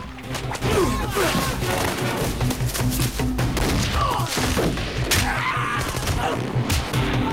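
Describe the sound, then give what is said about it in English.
Automatic gunfire during a jungle skirmish in a film, loud and sustained, mixed with crashes and thuds in a dense, busy soundtrack. “The man with the whip catches a rebel by the neck, while Harvey lets rip with an automatic. Some of the rebels are shot fleeing into the jungle.”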